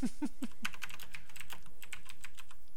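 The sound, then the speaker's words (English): Typing on a computer keyboard: many quick, crisp key clicks in a steady, busy rhythm over a constant low background, with no pauses across the stretch. “But I'll type it to you, apparently.”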